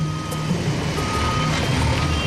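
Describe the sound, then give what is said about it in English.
Reversing beeps repeat a few times from a bulldozer backing up while clearing a road, over a loud, steady rumble of heavy machinery. “The bulldozer's backing up and pushing stuff off to the side.”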